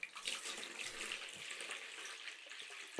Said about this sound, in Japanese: 温泉水を使って手足を軽くマッサージしていきます。